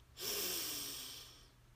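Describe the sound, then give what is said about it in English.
A single slow, airy breath, soft and breathy with a hissing quality. It swells quickly and then fades gradually over about a second and a half, alone against a quiet background. “So breathe in and out. Breathe in”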